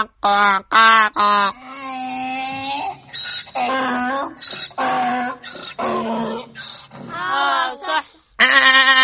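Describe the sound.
Donkey braying in a run of loud, harmonic calls that rise and break off repeatedly, with short gaps between the harsh voiced bursts.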